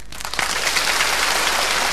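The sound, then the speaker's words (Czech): Warm applause from a comedy show audience, invited by the performers, starts after a brief quiet moment, swells quickly into a dense, hissing patter of many hands and holds steady to the end. “Teď si zkusíme zdvořilý. Zdvořilý. Prosím. A teď vřelý potlesk.”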